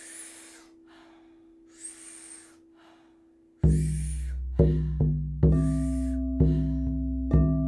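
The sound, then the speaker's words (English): Breathing exercise done lying down, with powerful inhales and soft exhales heard as a few breathy bursts. These are followed by five loud, ringing struck tones, each fading slowly. “Powerful inhale, soft exhale. It sounds like this.”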